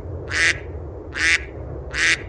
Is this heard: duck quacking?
yes